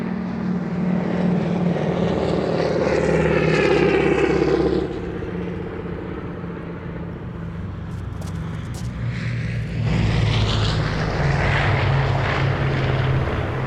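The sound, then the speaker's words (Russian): Propeller airplane flying over barracks at a fortress, a loud, steady droning engine with a throbbing tone that eases briefly midway before swelling again. “Самолет летит над казармами.”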